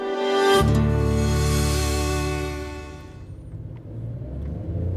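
A car drives off from a ski area at dusk, heading back down to the lowlands. Its engine rumbles steadily with a loud low drone and a harmonic whine, swelling as it gets going, then settling to a rougher hum, with no talk.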